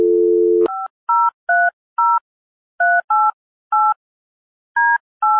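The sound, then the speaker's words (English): A telephone number is dialed: a steady dial tone cuts off into a series of short, clipped touch-tone beeps of varying pitch at uneven intervals. There is no talking. “I'm going to allow you to dial that first number.”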